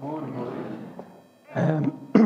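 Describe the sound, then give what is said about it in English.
Throat clearing comes as two short, rough, husky bursts after a brief stretch of voice and a pause. “excuse my throat.”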